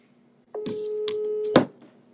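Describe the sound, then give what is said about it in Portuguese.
A telephone being dialled to place a call gives a steady, low electronic tone lasting about a second, opened by a soft click and closed by a sharper click, with no talk. “Tô ligando no Vitor Sono pra mandar ele atualizar lá.”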